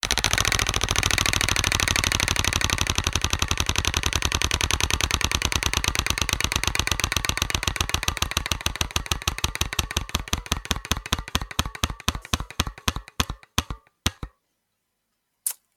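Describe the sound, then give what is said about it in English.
Spun wheel clicking as it turns: a rapid, loud ratchet of clicks that steadily slows, the gaps widening into a few separate final ticks before it stops and falls silent. “Okay, I'm spinning the wheel now.”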